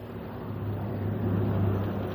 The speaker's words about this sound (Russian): А вон и автобус идет.